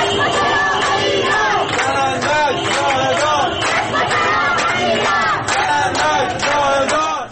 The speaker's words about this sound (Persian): این صدای اعتراض معترضان در اهواز است.